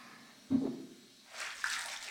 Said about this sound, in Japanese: 最後にお湯で洗い流すね。